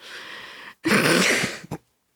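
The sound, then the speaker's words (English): A loud, harsh cough right into the microphone. A breathy rush leads into a throaty burst, then a short final hack, and silence follows. “don't cough right into the microphone.”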